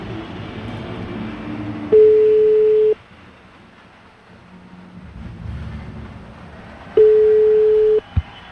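Ringing tone on a phone line while a call connects: two steady low tones, each about a second long, sound roughly five seconds apart over faint line noise, and a brief thump follows the second.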